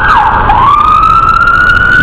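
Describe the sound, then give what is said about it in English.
An ambulance siren wails loudly as it passes on a city street. Its single tone dips briefly in pitch, then climbs slowly and holds steady. “And there goes the medic, the ambulance.”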